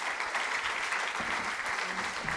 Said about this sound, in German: geben dir doch einen Applaus